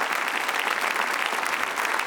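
Audience applause for a man at the close of a ceremony: a dense, continuous wash of many hands clapping at steady loudness throughout, with no pauses and no voices on top.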